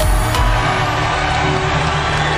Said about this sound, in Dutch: Luid gejuich op het Europese volkslied. Dan bent u vast beland bij die vreselijke eurofiele van Boekenstein en de Wijk. Of nou ja, eigenlijk bij het Louvre, 4 jaar geleden... waar Emmanuel Macron zijn overwinning vierde bij de presidentsverkiezingen.